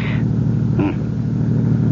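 Low, steady engine rumble of a car driving through a small town, a continuous even drone with no clear revving or change in speed.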